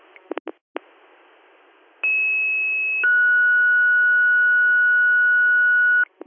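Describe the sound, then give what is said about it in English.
Radio dispatch alert tones: a few short clicks, then a steady higher tone for about a second and a longer, lower tone for about three seconds, all over faint static hiss. “Send Hornell, disregard your tones.”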